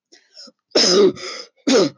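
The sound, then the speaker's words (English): A man coughs and splutters, out of breath after striding across a heath at night: a few loud, rasping, throaty bursts following faint breathy sounds. “Coughs bent Bradley to a spluttering stop near the tree line.”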